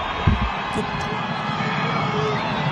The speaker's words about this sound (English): You can hear a bit of the audience here.